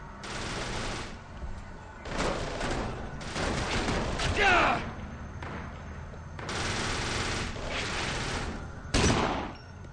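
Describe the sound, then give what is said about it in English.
Gunfire in a video game firefight: several loud bursts of rapid automatic fire, separated by brief quieter gaps, with one sharp louder burst near the end. “Yeah, there's a guy right there to your left that's trying to shoot you.”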